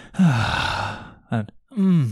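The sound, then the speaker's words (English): A person imitates someone audibly groaning during a sound bath session, making a few breathy, voiced groans with wavering pitch, the first long and drawn out, followed by a short one and a final longer groan. “There was two people in front of us and one of them just kept audibly groaning kind of through it.”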